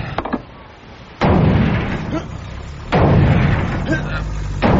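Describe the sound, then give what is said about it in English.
Heavy sledgehammer blows pound on an armor-plated door, three loud booming impacts spaced evenly apart, each followed by a long rumbling decay. “Sounds like a sledgehammer. A sledgehammer? That door's armor plated.”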